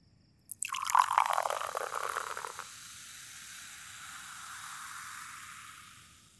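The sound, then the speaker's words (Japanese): Liquid pours close to the right ear. A loud, splashy stream starts abruptly, then settles into a softer, steady hiss that slowly fades. “それじゃあ、まずは右耳の近くで注ぐね。”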